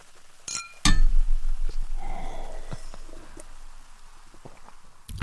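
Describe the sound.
Glass bottles clink, with a few sharp, bright knocks at the start and another at the end, and softer clattering and rustling in between. No voices.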